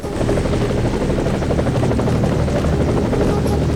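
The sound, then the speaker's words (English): A helicopter descending into a clearing gives a loud, steady rotor roar with dense low thudding that runs unbroken from start to finish. “Beckett, who's going to be first to get to the chopper that's descending into the clearing up ahead”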